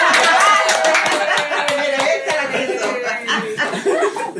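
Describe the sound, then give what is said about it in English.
Applause from a small group at a pan dulce bread-making gathering, brisk claps mixed with chuckling and laughter, loud throughout and gradually thinning toward the end. “¡Aplausos!”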